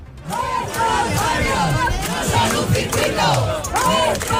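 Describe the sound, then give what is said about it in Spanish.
A crowd of neighbours chants at a protest outside IFEMA in Madrid, objecting to the nearby race circuit. Many voices repeat a short slogan in a steady rhythmic cadence, loud and sustained. “los vecinos que viven en el entorno del circuito de Madrid se han acercado hasta las puertas de IFEMA para reclamar que sus barrios no son un circuito, en una concentración que acaba de terminar hace unos minutos, pero en la que se han hecho oír así.”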